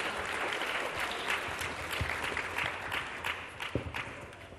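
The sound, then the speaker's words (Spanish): Sustained audience applause at an anniversary forum panel, dense steady clapping from a large crowd with a few sharper individual claps standing out, continuous at moderate loudness throughout. “Un aplauso, compañeros, para nuestros compañeros.”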